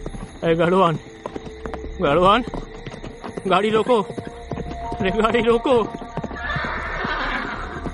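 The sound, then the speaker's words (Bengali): Clip-clopping hooves of two carriage horses on a road as the driver tries to rein them in, with four loud, high, wavering whinnies standing out over the hoof beats and a noisier, rougher neigh toward the end. “গাড়োয়ান বোধ হয় দাঁড়িয়ে উঠে দু হাতে রাশ টেনে ঘোড়া থামাতে চেষ্টা করছে, কিন্তু ঘোড়া কোনো মতেই থামছে না।”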